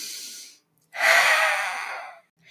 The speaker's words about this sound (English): So you breathe in